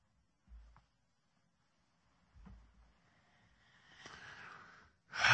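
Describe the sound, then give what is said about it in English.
A deep breath drawn in, a faint airy rush that swells over about a second after a couple of soft low thumps, ending with a sudden louder burst. “Boy, take a deep breath here.”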